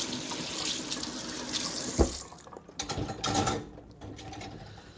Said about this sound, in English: Rinse off a little bit.